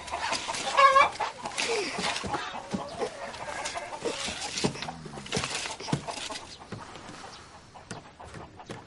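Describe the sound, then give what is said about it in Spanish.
Hen clucking in a stable while pecking at a table, short throaty clucks over a busy, cluttered background of shuffles and knocks, loudest near the start and fading to a lower, steadier murmur. “César duerme sobre una mesa donde picotea una gallina.”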